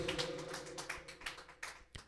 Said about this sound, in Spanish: Démosle palmas al Señor. Gloria a Dios.